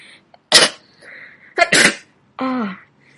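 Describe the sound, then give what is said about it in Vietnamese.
A woman sneezes repeatedly in a gust of cold wind, a few loud, sharp bursts separated by short pauses, the last one drawn out into a voiced, falling tone. “một trận gió rét thổi đến, cô liên tục hắt hơi vài cái”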